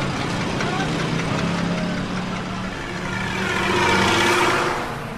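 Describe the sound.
A bus engine runs as the group sets off, a steady low rumbling drone with a broad hiss that swells in loudness near the end.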